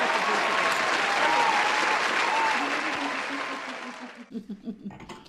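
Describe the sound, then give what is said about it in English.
Studio audience applause on a talk show, a thick wash of clapping that stays loud for several seconds, then thins and fades away before a person starts talking. “Put your hands together for the audience.”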